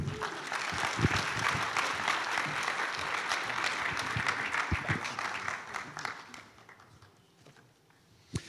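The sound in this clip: Audience applause welcoming a speaker at a church service, a dense, steady wash of clapping that holds for about six seconds, then fades out.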